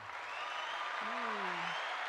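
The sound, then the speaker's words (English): A round of applause, a soft, even wash of clapping with a voice briefly speaking over it midway. “So everybody give a round of applause”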